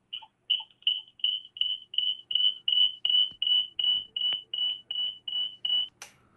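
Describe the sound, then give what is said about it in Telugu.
Phone line tone after a call is cut off: a long, even series of short, high electronic beeps at a steady pitch and rhythm, sounding alone and ending with a brief, brighter burst. “Okay, శ్రోత line cut అయినట్టుంది.”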